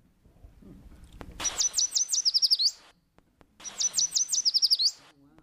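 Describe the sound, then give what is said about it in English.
Yellow warbler singing among coastal oaks and trees along waterways: two separate songs, each a quick series of high, sweet chirped notes ending in a short flourish, clear against a quiet background. “It's called a yellow warbler, and yellow warblers live in coastal oaks.”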